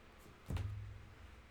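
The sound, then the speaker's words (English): A single faint thud of a door slamming shut, a short low knock with a brief rumble that trails off quickly. “There's the door. The spears go back in and the door slams shut.”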